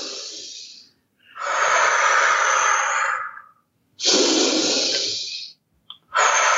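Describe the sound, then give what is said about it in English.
Slow integrative breathing in a breathwork demonstration, with long, loud, airy breaths lasting one to two seconds each, separated by short silent pauses and a brief sniff near the end. “we start with integrative breath work versus meditative, and I'll explain what that means in a second, but integrative meaning slow. So the breath would be,”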